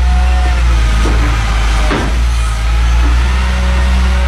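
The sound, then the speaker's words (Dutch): Loud, steady low diesel drone with a tonal hum from a wheel loader scooping road salt toward a gritting truck at a municipal works yard, holding an even level throughout. “Een shovel hier op de gemeentewerkplaats die toch echt heel veel zout hier pakt. Richting een strooiwagen.”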